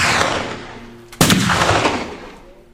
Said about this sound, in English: The bullets cut between us, tore out a spoke of the wagon wheel.